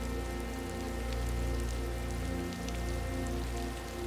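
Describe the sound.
Steady rainfall in a garden with a fish pond, a continuous patter of drops on surfaces with occasional sharper ticks over a low, even hum. It runs unbroken for about four seconds.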